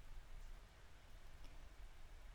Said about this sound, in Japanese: 雨嫌いじゃないんですけど、急に来るのはやめてほしいですよね。